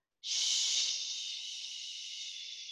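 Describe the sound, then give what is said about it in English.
One long, steady "shh" hiss made while exhaling during a breathing exercise. It starts abruptly, stays soft and airy, and fades slightly over a couple of seconds, with no talk over it. “You make shh. Each time you exhale,”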